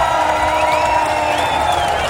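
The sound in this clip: Crowd cheering, whooping and applauding at a festival opening as a ceremonial fire and torch are lit, a dense, steady roar that holds at one level throughout.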